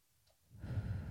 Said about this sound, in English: Take a deep breath in.